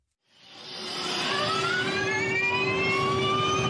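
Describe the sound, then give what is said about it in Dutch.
An electric racing car drives past, its high motor whine rising from silence and climbing steadily in pitch as it grows louder, then holding strong over a steady lower hum. “Dus een elektrische auto.”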